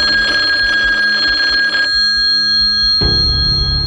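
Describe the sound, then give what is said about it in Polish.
A telephone rings as a call is placed to the police: a loud, steady, bright ringing tone that breaks off partway through, followed by a rougher, lower burst of sound. “Postanawia niezwłocznie zadzwonić na milicję.”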